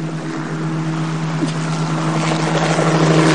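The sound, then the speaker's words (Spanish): Helicopter taking off, a steady engine drone with a low tonal hum and wind-like rushing noise that slowly grows louder toward the end, no voices. “El helicóptero despega”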